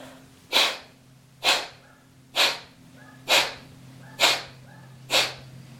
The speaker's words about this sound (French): Fermez la narine droite avec le pouce. Observez l'inspire dans la narine gauche et chassez 12 fois.